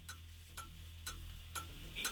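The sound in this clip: Game show countdown clock ticking for a 60-second round: five faint, evenly spaced ticks, about two per second, against a soft background hum.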